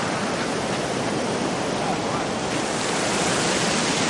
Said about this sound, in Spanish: Las olas cada vez absorben más a Cachita. Finalmente, María se quita la camiseta y entra al agua.